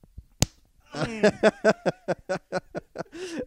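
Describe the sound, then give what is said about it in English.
A single sharp smack lands as someone is slapped in the face right after taking a shot. The crisp crack comes early and alone, followed by a run of rhythmic vocal sounds. “I don't know if he had the shot totally down before he gets smacked in the face.”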